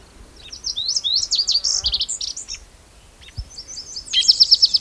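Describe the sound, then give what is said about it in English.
A song sparrow sings in short bursts of high, bright chirps and trills, with a pause between them. Faint low thumps sound underneath, and no voices are heard. “Song Sparrow in the background.”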